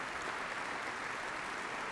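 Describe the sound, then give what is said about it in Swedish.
Sveriges Radio Symphony Orchestra musicians applaud on stage after the premiere of a concerto for bayan and orchestra, an even, unbroken wash of clapping throughout. “En scen som fortfarande befolkas av en applåderande Sveriges Radio Symfoniorkester”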